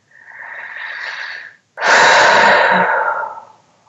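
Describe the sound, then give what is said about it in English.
A big deep breath taken during an EFT tapping session for moving through change: two long, airy breath sounds with no talk, the second louder, fuller and longer than the first before it fades out. “Big deep breath.”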